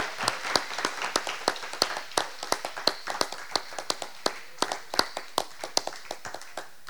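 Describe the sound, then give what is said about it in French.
Worshippers clapping for the Lord in a French and English service, many sharp, distinct hand claps in a steady, even rhythm that keeps going throughout. “Oui, oui, acclamons le Seigneur, acclamons. Let's clap for the Lord.”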